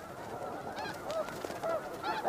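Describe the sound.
Snow geese honk on the tundra, giving several nasal, fairly faint honks over a steady background hiss.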